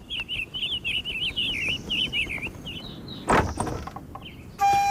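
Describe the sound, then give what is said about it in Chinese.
A wooden house door opens with a single short clunk partway through, while birds chirp steadily throughout and another brief noise follows at the end. “杨震打开屋门，见王密跪在外面。”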